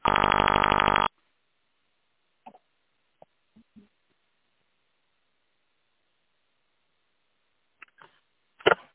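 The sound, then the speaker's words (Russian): An answering machine sounds one loud, steady electronic beep lasting about a second, followed by near silence broken by a few faint clicks and a brief louder crackle at the end. “Если хотите оставить ему голосовое сообщение, пожалуйста, говорите после звукового сигнала.”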